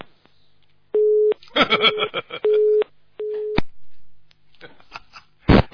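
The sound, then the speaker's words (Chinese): Telephone busy tone after a call line disconnects: three steady, mid-pitched beeps with crackly, garbled noise between them and a short burst of noise at the end. “你表扬他断掉了，线断掉了。”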